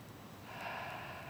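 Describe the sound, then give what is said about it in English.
A voice imitates an exhalation, standing for God breathing creation into being: a single soft, airy breath out that starts after a brief quiet moment and swells gently. “its simplest form is God breathing. In the beginning, there was darkness. And God went,”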